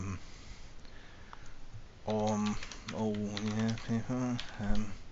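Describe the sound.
Soft, rapid clicks of people typing on computer keyboards, faint and alone at first, then continuing under a person talking.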